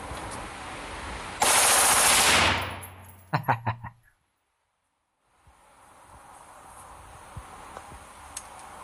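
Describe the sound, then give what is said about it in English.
Gunfire from an AR-15 rifle on full automatic: a loud, sustained burst of rapid shots lasting about a second, then a quick cluster of four sharp cracks, followed by silence. “An AR-15. Now watch this. I go all the way to full auto.”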